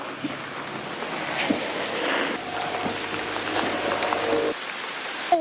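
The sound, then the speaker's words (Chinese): Heavy rainstorm pouring on a sweet potato field, a dense steady hiss of rain with faint low rumbling underneath, holding at a constant level. “这场暴雨的话可能会持续的时间比较长，也比较大”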